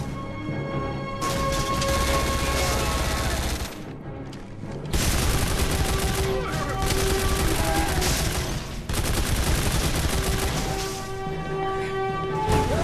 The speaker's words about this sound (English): I wondered what them big blasts of energy going past us were.